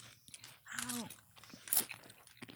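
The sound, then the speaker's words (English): Crisp crunching of an original Smiths potato chip being bitten and chewed. A few dry crackles come with one sharp, bright crunch near the middle, and a short voiced sound is heard before it, all at a fairly low level. “Just your original potato chip? Standard Smiths chip.”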